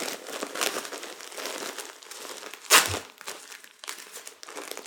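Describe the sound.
Diaper tapes being unfastened during a baby's diaper change make a crinkly rustle of plastic, with one louder, sharp ripping crackle near the middle.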